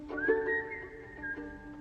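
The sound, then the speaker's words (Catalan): A person whistles a Celtic folk tune in the Irish style, a few clear, sustained melodic notes that are fairly soft and heard alone. “això és ell mateix xiulant també, no?”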